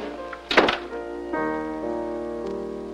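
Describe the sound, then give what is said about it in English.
A door closing behind people as they leave a room: one dull, solid thunk early on, heard over a sustained tonal background that continues after it. “closes the door behind them”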